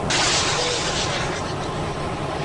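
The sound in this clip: Missile fire and an explosion in a radio drama battle with ASPID missiles, a loud, dense roaring blast that stays sustained and rumbling throughout.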